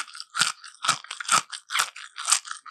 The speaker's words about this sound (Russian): Это йогурт. Опять же, какой-то овощно-ягодный хруст.